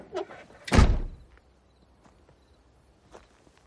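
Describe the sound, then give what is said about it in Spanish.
A car door shuts with one heavy, solid thud, then faint, sparse footsteps follow on a path leading uphill. “Saca sus pertenencias y cierra la puerta del coche.”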